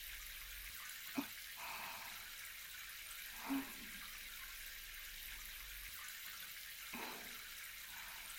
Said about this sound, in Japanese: それではこのまま後ろの髪を十分に濡らして、